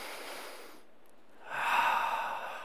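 A roomful of people taking a deep breath together: a soft airy hush, then a broader, louder swell of breathing that rises and slowly eases off, with no talk over it.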